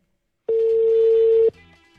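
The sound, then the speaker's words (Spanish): A steady telephone tone sounds while an outgoing call is dialed: one clear, even electronic note holding for about a second from a quiet start, then stopping abruptly and leaving faint residual noise. “Se va la llamada. Vamos a ver a quién. Estamos marcando.”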